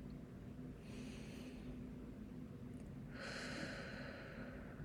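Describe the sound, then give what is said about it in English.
Two deep breaths drawn in, each a soft airy hiss lasting about a second, the second one longer and fuller, over a steady low background hum. “let's take a deep breath in together. One more breath.”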